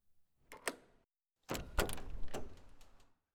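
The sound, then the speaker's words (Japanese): A door is opened: first a couple of faint clicks, then a soft sliding, rattling scrape lasting about a second and a half. No voices are heard. “今開けるね。”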